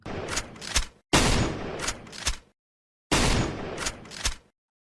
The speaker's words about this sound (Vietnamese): Lời còn chưa dứt, súng đã nổ.